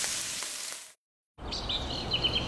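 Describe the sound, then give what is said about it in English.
Spam pork sizzles in a frying pan with a dense, crackling hiss that cuts out briefly midway, then resumes just as strongly. “hear that? That's the Spam brand singing you a love song. Spam, sizzle, pork, and mmm.”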